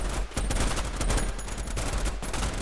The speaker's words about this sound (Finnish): Joka ikinen rynnäkkökivääri alkaa laulamaan tuttua säveltä niin sarja tulella kuin yksittäislaukauksillakin. Sitä paukkeen ja hylsyjen määrää.